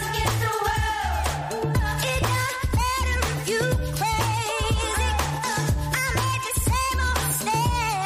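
Music from a British band's new album: a driving drum beat with deep bass under layered melodic and synth lines, full and steady for the whole stretch with no talking.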